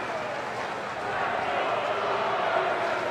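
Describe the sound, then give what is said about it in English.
A Milwaukee Brewers baseball crowd in the ninth inning makes a dense, steady wash of noise that swells a little louder after the first second and then holds. “And the Brewers fans are getting loud here in the ninth inning.”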